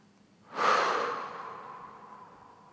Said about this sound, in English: let's start by just taking a lovely deep breath in and exhale.